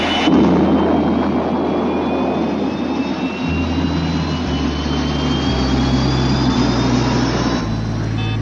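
A jet airplane takes off with a loud, steady engine roar and a high whine that climbs slowly in pitch over a deep low rumble. No voices are heard.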